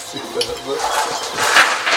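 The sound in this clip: Dice clatter down a dice tower at a tabletop role-playing game, with short rattling knocks amid louder ongoing talk.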